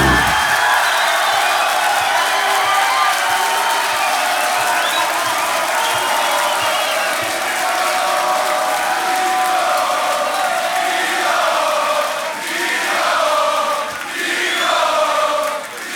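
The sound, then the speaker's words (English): An audience at a 2019 solo beatbox battle cheers and applauds. The crowd roars with loud, sustained clapping and whoops, steady throughout, and a few rising yells stand out near the end. “I say the three, y'all say the 2 and the 1, crowd in 3, 2, 1, give it up, D-Lo.”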